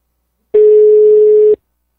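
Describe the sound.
A telephone ringing tone sounds on the line as a single loud, steady beep of about one second, alone between stretches of silence.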